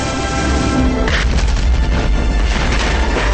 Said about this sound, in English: The explosion creates a violent current heading toward the surface of the water.